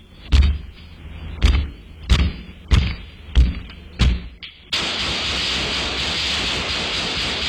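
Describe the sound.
Men kick at a door, six heavy thuds landing in a steady rhythm about half a second to a second apart. A broad, constant hiss follows.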